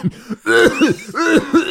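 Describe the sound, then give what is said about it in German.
A voice imitating an asthmatic's cough: a rapid run of several raspy, voiced, hacking bursts, each with a brief arcing pitch, loud and nearly continuous. “Oh, der Asthmatiker, oh. Ja. Ja, ja, auch gut. Auch mit so einem Husten dann irgendwann.”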